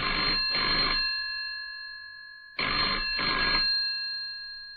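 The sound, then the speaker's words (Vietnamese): A telephone rings twice, each ring a quick double burst of bright, metallic trilling, with a silent gap of over a second between the two rings. “Đang ăn cơm, có tiếng điện thoại reo.”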